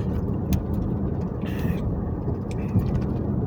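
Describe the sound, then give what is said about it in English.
Heavy trucks working outside, lifting and dropping loads: a continuous low engine rumble with a couple of faint knocks on top. “record anything without hearing heavy ass trucks lifting and dropping shit”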